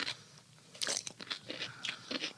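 A crisp bite into a gherkin dipped in mustard, then many quiet, wet crunches of chewing in an uneven rhythm, with no talk.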